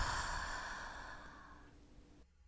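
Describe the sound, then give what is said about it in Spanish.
Breathing out during a guided breathing exercise: a single long, soft, airy exhale that slowly fades over about two seconds, then near silence. No talking. “Inhalas y exhalas.”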